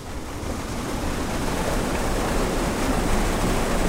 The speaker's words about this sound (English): This is the sound of the West Virginia American Water Treatment Plant in Huntington, one of 14 drinking water plants that found blooms in their intakes during last summer's outbreak.